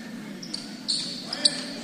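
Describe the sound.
A basketball is dribbled on a court during a game: a few soft bounces over a steady murmur of background noise, with some sharp high tones mixed in.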